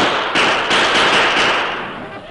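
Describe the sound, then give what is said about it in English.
Gunshots in a battle: a rapid series of several dull, thumping cracks over a dense, steady roar of noise that eases off slightly toward the end. “Keep shooting.”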